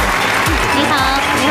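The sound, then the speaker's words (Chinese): Audience applause welcoming a guest doctor onto a Chinese health talk show, steady dense clapping throughout with a voice faintly beneath it. “掌声有请”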